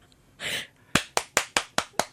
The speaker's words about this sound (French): Là, par applaudissement. Qui aime ça aller à un mariage?